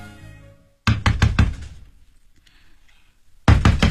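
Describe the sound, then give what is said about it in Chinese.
Knocking on a house door late at night: a quick burst of several loud, hollow raps, then a quiet pause with faint sound, then another burst of knocks. “就在他起床拿安眠药的时候啊，听见有敲门的声音。”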